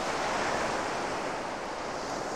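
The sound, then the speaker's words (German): Sea waves wash in as a steady, broad rush of surf, continuous and fairly loud with no distinct breaks, carrying a wind-like hiss throughout. “Das Meer beruhigt mich.”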